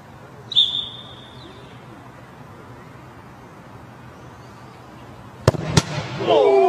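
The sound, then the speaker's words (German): A referee's kick-off whistle sounds as one sharp, high blast near the start, cut off within about a second, in a soccer scene against a robot goalkeeper. Two loud, sharp bangs follow near the end, then a burst of louder noise. “Die Szene, die ihr jetzt hört, geht los mit dem Anpfiff des Schiedsrichters.”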